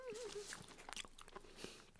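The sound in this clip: Chewing on a half-eaten custard cream bun from a bakery: soft, irregular wet mouth sounds and small bites, faint and quick, with no talking.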